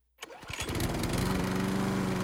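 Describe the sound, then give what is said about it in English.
A Country Clipper zero-turn riding lawn mower engine starts after a moment of silence, catches with a few uneven sputters, then settles into a loud, steady buzzing drone. “When it comes to mowing, why spend your weekend riding in circles? Step up to a Country Clipper zero-turn mower from Chanson Brothers”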